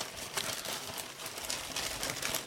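Crinkly rustling of a bag being handled and groped inside during a guessing game, a continuous papery crackle with brief louder bursts, moderately soft throughout.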